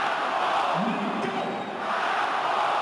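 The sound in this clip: A football stadium crowd chants the goalscorer's name at Parken Stadium in Copenhagen after Damsgaard's equaliser for Denmark against Portugal. A massed chanted tone rises out of a loud, steady roar of voices.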